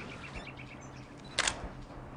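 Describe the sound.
Camera shutter firing once to take a photo, a single short, crisp click against a faint, quiet background with no speech.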